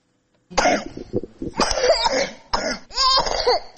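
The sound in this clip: A three-year-old child with an acute respiratory infection in a long coughing fit: harsh, wet coughs come in quick succession after a moment of silence, with strained, voiced gasps between them.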